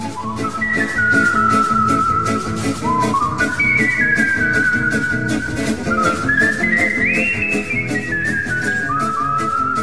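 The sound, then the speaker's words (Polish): A person whistling a melodic tune, with clear sustained notes that step and slide between pitches, carried over a steady rhythmic backing beat. “Co więcej, zarabiam na życie gwizdząc. Whistling.”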